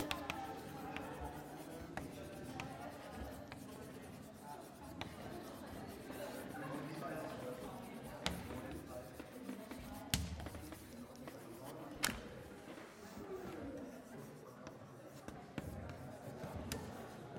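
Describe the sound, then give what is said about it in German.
Chalk writing on a blackboard during a mathematics lecture: faint scratchy strokes in uneven bursts, with occasional sharper taps as the chalk meets the board. “Gut, ich schreibe das nochmal hin, damit es an der Tafel gestanden hat.”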